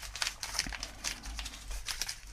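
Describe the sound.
Paper crinkling as paper-wrapped cutlery is unwrapped at a table: faint, irregular crisp crackles and rustles running throughout.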